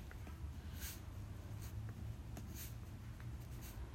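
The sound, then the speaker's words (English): Pen writing at a small desk: faint scratching strokes and a few sharper short ticks over a steady low hiss, quiet and without talk. “I'm writing that down. And I think I'm right now at my little desk area.”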